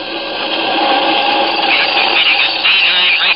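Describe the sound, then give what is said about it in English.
A rocket cruiser's rocket motors start up as a radio-drama effect, a loud, continuous mechanical whine and hum that throbs steadily and grows slightly busier toward the end. “The ship begins to throb with the unleashed power of its rocket motors.”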